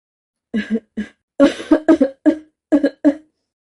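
Hoarse coughing from a sick man behind a folding screen, a rapid series of many harsh coughs in short clustered bursts with brief pauses between, alone with no talk.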